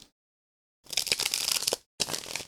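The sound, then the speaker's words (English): Papery snapping and rustling of a tarot card being drawn from a deck, in two short bursts separated by a brief pause. “So let's do what we do. Pull a tarot card for the conclusion of the saga, and then get into it.”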